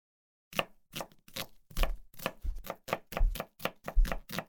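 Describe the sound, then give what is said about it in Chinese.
Cooking in a home kitchen: a knife chopping food on a board in a steady, brisk rhythm of many crisp knocks with dull low thuds, and no talking. “算了，先做饭吧。”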